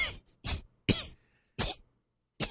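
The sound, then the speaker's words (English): Throat-clearing coughs come from someone with a catch in the throat: five short, harsh bursts spaced by brief silences, each rough and fairly loud, with no talk. “Let's just get a little catch in my throat.”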